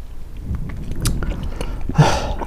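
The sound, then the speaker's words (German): Chewing on a whole hard candy, with close, irregular wet crunches and sharp clicks of the jaw working, and a louder, fuller crunch burst near the end. “Man muss dazu sagen, wir haben gerade Alfred-Bonbon gegessen.”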